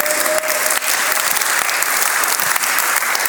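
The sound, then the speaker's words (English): A church audience claps, a dense and loud steady wash of many hands that holds evenly throughout with no voices standing out. “You can clap for that or not.”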